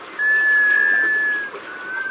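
A sea duck's musical wailing call: a long, steady, high tone that holds one pitch for over a second, with a softer repeat near the end, over a constant hiss.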